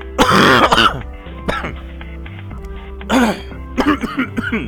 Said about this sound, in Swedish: Vad gör du just nu? Jag hostar lite bara.